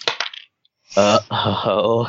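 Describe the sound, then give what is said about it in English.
Dice being rolled: a short, bright clatter of a few rattling hits right at the start, followed by a brief silence. “I am gonna make a roll. It's gonna be my own personal thing, and it will dictate what Neil is gonna do next.”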